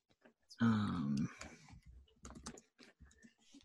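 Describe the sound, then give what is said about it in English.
Typing on a computer keyboard gives a run of quick, light, irregular key clicks, faint overall. A brief voiced sigh-like sound comes just before the clicks. “Oops, I typed it.”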